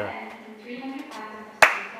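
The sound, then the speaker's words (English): A single sharp hand clap, loud and very brief, lands near the end after a stretch of faint, low murmuring. “Give a clap.”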